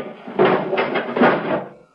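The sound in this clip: A spacecraft canopy closing, made as a radio drama sound effect: a short mechanical rumble of about a second and a half with a few pulsing surges, then fading out.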